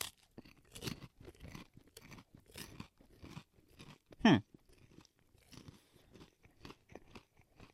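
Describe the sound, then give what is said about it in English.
Someone eats a honey cinnamon rice cake, making many crisp crunching chews in an uneven rhythm, with one sharper, louder crunch near the middle. “All right, rice cake. Smell good. Is it honey cinnamon? Yeah, you can definitely smell the cinnamon on here.”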